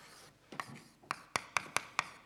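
A mathematical formula is written by hand, producing faint, short, sharp tapping and scratching strokes: a few irregular ones at first, then a quicker, evenly paced series of crisp taps.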